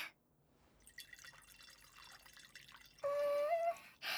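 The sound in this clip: A drink is poured into a glass, starting as a faint, soft trickle and turning into a clearer pour whose tone rises steadily in pitch as the glass fills.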